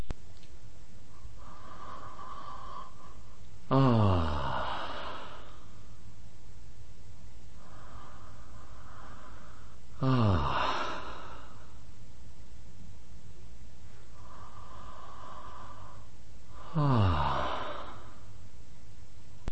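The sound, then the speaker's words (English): Drawn-out throat sounds of breathing during a breathing session as the throat closes: three loud, rasping exhales at regular intervals, each preceded by a softer, prolonged inhale, with near quiet between them. “a very prolonged inhale throat sound and quite a prolonged exhale throat sound”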